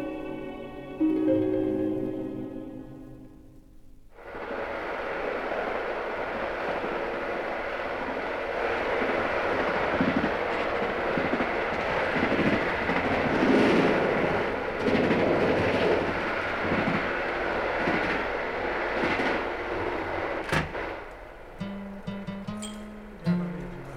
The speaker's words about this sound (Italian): Treno lascia la stazione, partiamo in tanti per necessità